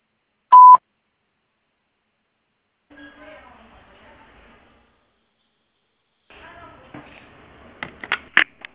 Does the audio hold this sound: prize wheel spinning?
no

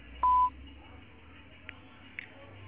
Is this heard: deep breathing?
no

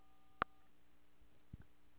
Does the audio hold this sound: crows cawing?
no

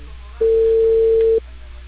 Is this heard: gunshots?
no

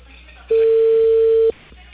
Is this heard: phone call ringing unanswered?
yes

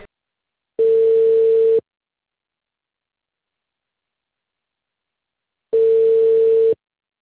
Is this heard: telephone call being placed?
yes

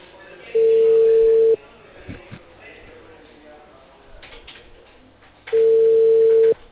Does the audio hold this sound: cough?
no

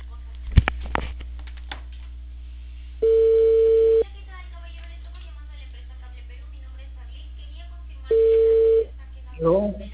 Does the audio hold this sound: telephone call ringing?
yes

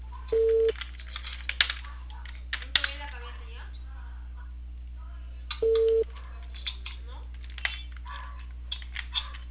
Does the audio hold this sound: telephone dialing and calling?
yes

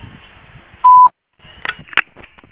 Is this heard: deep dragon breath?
no

